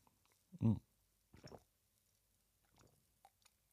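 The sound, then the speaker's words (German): Coffee is sipped in two soft, short slurps, followed by faint swallowing and a small mouth click, all quiet against near silence. “Jetzt trinke ich nochmal einen Schluck Kaffee gerade.”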